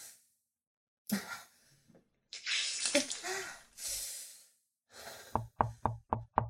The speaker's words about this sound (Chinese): 敲什么敲啊？不知道本皇在冲洗吗？